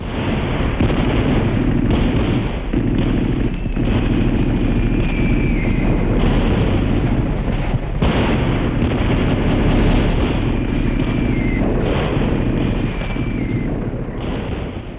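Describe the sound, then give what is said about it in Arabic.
Artillery fire and explosions make a continuous, loud barrage of booms and bursts that roll into one another. A few thin, high whistling tones slide downward over the rumble. “فتنطلق في السماء تلك الوحوش الطائرة المدمرة، تصحبها زغاريد طلقات نيران ذلك الرجل الرهيب قائد المدفعية.”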